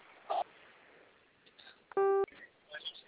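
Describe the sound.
A single telephone keypad tone as zero is pressed on an automated call, a short, loud electronic beep lasting about a quarter second, among faint scattered background sounds.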